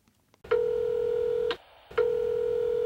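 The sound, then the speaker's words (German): Two long, steady mid-pitched electronic tones from a telephone answering machine, signaling before a message. The first lasts about a second, then a short gap, then the second tone starts and runs to the end. “Sie hören eine Mitteilung auf Ihrem Anrufbeantworter.”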